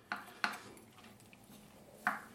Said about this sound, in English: Chop them into small pieces. This is very exciting to hear.